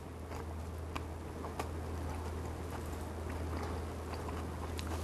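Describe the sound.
Biting and chewing extra-crispy fried food dipped in soy sauce: faint crisp clicks and soft crunches scattered through a steady hiss, with no talking.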